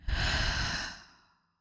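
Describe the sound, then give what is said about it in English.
A single deep belly breath, heard as one long, breathy exhale of air that starts loud and steady for over a second, then fades away into silence with no talking. “take one deep, big belly breath in, and exhale out.”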